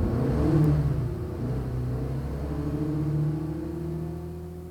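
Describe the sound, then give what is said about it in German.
Car engine pulling away on a Paris street: a steady low rumble with a faint whir that holds at an even level for several seconds and eases off slightly toward the end, with no voices. “Fahren Sie Rue de Rivoli 22. Oui, Monsieur.”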